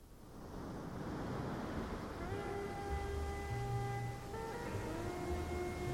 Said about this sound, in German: Riesige Brandung. Er geht eine Weile am Saum des Meeres unschlüssig hin und her,